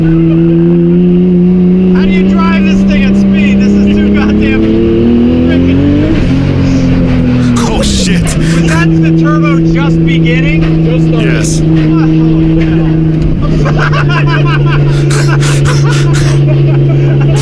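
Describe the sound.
A car engine drones loudly as the car is driven, its pitch climbing then dropping before settling into a steady hum, with people talking over the noise.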